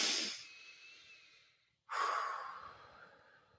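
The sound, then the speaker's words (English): Deep breathing, in through the nose and out through the mouth, as part of a calming exercise: two long, soft, airy breaths separated by a brief silent pause, with no talk. “So in through your nose, out through your mouth three times.”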